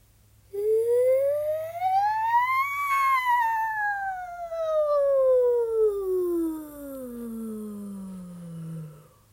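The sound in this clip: A single voice glides smoothly up to a high peak and then slides slowly back down, like a siren, in a singing warm-up for riffs meant to explore the top and bottom of the vocal range. The sustained, clear tone is heard alone.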